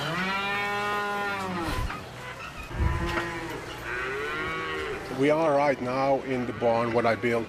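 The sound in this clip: Dairy cows moo in an airy, shaded cattle barn on a farm in Romania, giving long, low, drawn-out calls with rich harmonics. Several calls follow one another and overlap, loud and continuous.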